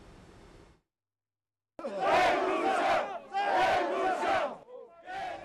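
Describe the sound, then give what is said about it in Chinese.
Union members, farmers and Indigenous groups chant slogans at a mass protest march in La Paz, Bolivia, demanding the president's resignation. After a short lead-in and a silent gap, the crowd erupts in loud, repeated bursts of rhythmic shouting. “你听到这些抗议者们不断高喊口号，要求总统帕斯要下台。”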